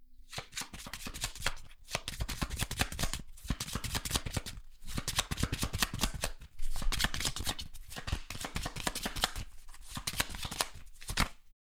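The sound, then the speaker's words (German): Playing cards are riffled and shuffled for a board card game, with one round card set aside before the rest are mixed. Many crisp, papery bursts of riffling come in repeated runs separated by brief pauses. “Dann mische ich mal die Karten. Dazu gebe ich die Karte Nummer 17, die Rundenkarte, gebe ich natürlich heraus und mische die restlichen Karten.”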